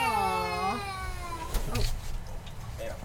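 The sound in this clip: A cat lets out one long, harmonic-rich meow that slides downward in pitch, followed by quieter shuffling noise and a brief soft thump.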